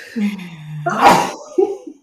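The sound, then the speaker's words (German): A single human sneeze: a short voiced lead-in breaks into a loud, breathy burst, then trails off with a brief softer sound. “Moment, ich muss niesen.”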